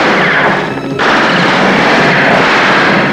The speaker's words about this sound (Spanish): Los guardias disparan por el agujero de las tuberías.